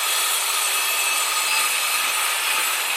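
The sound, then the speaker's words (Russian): Powerful circular saw running at full speed, a steady, unbroken hissing roar that holds at one level throughout with no pauses or changes. “Этот звук был ему хорошо знаком. Звук мощной дисковой пилы, работающей на максимальных оборотах.”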